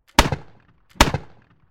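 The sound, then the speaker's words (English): Two musket test shots fired by soldiers on a spring march to check their powder is dry, each a sharp, loud bang with a short rumbling tail, spaced under a second apart. “Still others spend their march firing test shots to make sure their powder is staying dry.”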